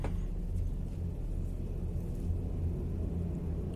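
A helicopter flying low over a house gives a loud, steady, deep rumbling drone that holds without a break for the whole stretch, with no voices over it.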